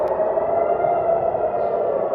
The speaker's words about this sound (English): The deadly fireworks and the sirens are constant.